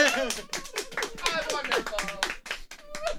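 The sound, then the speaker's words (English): Hands clap in a round of applause, a dense patter of claps running throughout while voices talk and call over it. “Let's get a round of applause.”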